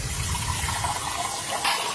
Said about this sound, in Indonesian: bantuin aku cuci piring dong. Nyuci piring kan tugas cewek.